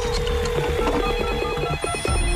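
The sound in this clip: A telephone bell rings with a rapid metallic rattle, repeating in quick bursts. It stays loud and steady over a busy background.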